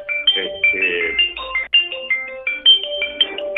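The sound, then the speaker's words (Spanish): A doctor's mobile phone rings with a melodic ringtone: a steady run of bright, high tone bursts repeating in a quick pattern. “A ver, un segundito, que está apagando el celular el doctor.”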